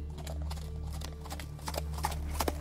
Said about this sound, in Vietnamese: Thái tử lúc này chậm rãi thúc ngựa đi qua cổng thành, hướng vào bên trong.